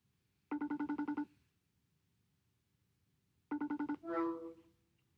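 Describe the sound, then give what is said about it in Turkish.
A phone rings as a call is placed to a friend: two bursts of rapid, bright electronic pulses separated by a pause. The second burst is followed by a brief warbling tone. “O yüzden şimdi sizin yanınızda bir arkadaşımı arıyorum.”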